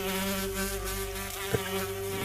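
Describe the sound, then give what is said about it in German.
Insects hum on a cold moor, a steady, even buzzing drone that holds without a break in an otherwise quiet setting. “Und ihr alle drei merkt, wie leise es hier eigentlich jetzt ist. Bis auf das Summen der Insekten.”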